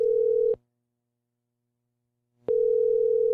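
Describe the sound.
A telephone tone sounds while calling a random Puerto Rican phone number: a steady electronic hum cuts off, leaves about two seconds of silence, then resumes at the same pitch.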